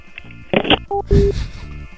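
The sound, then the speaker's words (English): A telephone is hung up at the end of a prank call: two short, steady electronic beeps sound among a few brief noisy clunks. “Just hang up the phone.”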